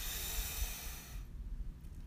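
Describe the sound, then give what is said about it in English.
A slow breath drawn in during a guided meditation: a soft, airy hiss that holds steady for about a second, then fades to near silence. “Breathe in and out. And our third and final breath together. Let's breathe in”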